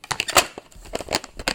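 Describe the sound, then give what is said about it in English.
A plastic Blockbuster VHS rental case is opened with a quick flurry of crisp clicks, creaks and crackles packed into about a second and a half. “A little ASMR opening the Blockbuster case. Ready? Oh, listen to that.”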